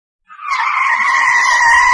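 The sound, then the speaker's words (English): Tires squeal as a car skids to a stop at a studio gate: a loud, sharp, high-pitched screech that starts abruptly and holds steady to the end. “The car stops at the gate of the studio.”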